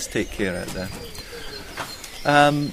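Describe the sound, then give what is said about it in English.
Birds singing at dawn on an early-morning nature walk, with a pigeon cooing among them, heard briefly beneath a person talking. “this is the best time of day to hear the birds singing.”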